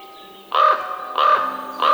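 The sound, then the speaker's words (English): Three harsh, hoarse raven croaks, evenly spaced and each a loud rasping call, sounding alone with no talk between them. “The raven himself is hoarse that croaks the fatal entrance of Duncan”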